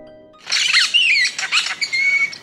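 A bowerbird calls at its bower as a female arrives, giving a loud stretch of harsh, chattering squawks mixed with short whistled notes, with no other sounds.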